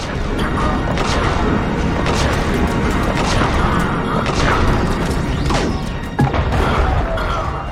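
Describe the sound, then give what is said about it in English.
Loud, dense video-game combat: seeker missiles strike tower shields, giving steady crashing impacts and booms, with sweeping whooshes cutting through a constant noisy din. “Their tower shields can block the seeker missiles.”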